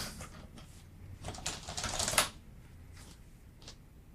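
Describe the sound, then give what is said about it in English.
Keys clatter softly on a computer keyboard as a password is typed: a short run of quick clicks that builds to a denser burst midway, then a few scattered taps. “So I can't end the podcast because my screensaver kicked in and I didn't type my password right. But if I type it 3 times, it'll probably give me a hint.”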